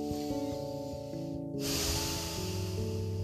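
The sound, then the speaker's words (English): A deep breath drawn in through the stomach, heard as a long airy inhale that swells midway and holds steady over sustained background tones. “Breathing in through my stomach,”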